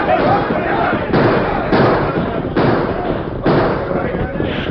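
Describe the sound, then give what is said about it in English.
Gunfire rings out in a radio western shootout between outlaws and armed men: several sharp, loud cracks at irregular intervals over a dense, continuous bed of noise. “Then, surprised and desperate, the Gila kid and his men opened fire.”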